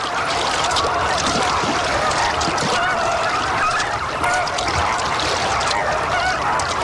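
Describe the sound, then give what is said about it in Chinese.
Continuous loud honking calls fill the air as an adult red-crowned bird calls while searching for its chick among a group of young birds. Many overlapping calls form a dense, unbroken chorus. “一只大红冠成鸟在幼鸟群中寻找它心爱的孩子。”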